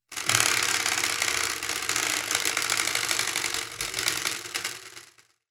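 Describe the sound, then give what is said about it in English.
A spinning prize wheel clatters with dense, rapid ratchet-like clicks that run for several seconds at a fairly even level, then fade away as it comes to rest. “give the wheel a spin.”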